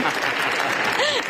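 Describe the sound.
Steady, dense applause from a crowd runs the whole time without a break. A voice is faintly heard over the clapping near the end.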